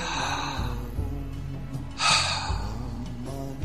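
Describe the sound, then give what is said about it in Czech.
A deep breath in and out during a guided breathing exercise. Faint airy breathing is followed by one louder, rushing breath burst, with no talking. “Takže hluboký nádech.”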